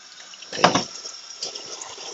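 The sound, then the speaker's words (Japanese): Tap water runs over a plastic food container stained by tomato curry as it is washed. The steady faint stream has a brief louder splash early on and a few smaller spatters later. “今、カレーを入れていってタッパーを洗っています。”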